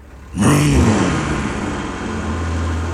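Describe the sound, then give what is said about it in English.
A car that is on fire suddenly starts its engine by itself. A loud burst of cranking noise gives way to a steady, low running hum that carries on to the end. “the car has turned itself on. It's like somebody turned the key to the ignition.”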